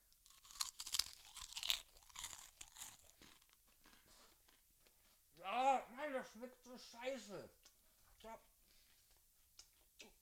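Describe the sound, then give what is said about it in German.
Crisp, crackly crunching as someone bites and chews a rice cracker. A loud burst of crunches in the first few seconds is followed by softer chewing, then a voice speaks briefly. “Ich esse diesen Reiskeks gerade noch kurz auf.”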